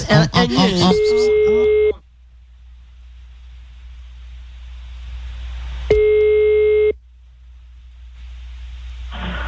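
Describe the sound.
Ringback tone of an outgoing telephone call: two long, steady electronic tone bursts separated by a silent pause of several seconds. A brief voice precedes the first tone.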